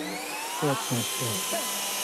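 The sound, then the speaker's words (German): A jet fighter engine starting up gives a high, steady whine over a broad roar, while a voice speaks briefly over it. “jetzt startet der Düsenjäger wieder. Oh. Laut ist es.”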